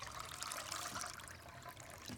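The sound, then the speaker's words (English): Milk poured from a bottle into a glass makes a faint, continuous liquid trickle and splash that holds steady throughout. “Daryl goes to the fridge, takes out a bottle of milk, warms some on the stove for Calvin, and pours a glass for himself”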